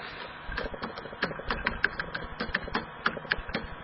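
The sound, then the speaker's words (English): Keystrokes on a computer keyboard while someone edits Wikipedia: many quick, uneven clicks tapping in short bursts, faint and close together. “I just clicked on an edit button. I am now writing Wikipedia. And I could put in”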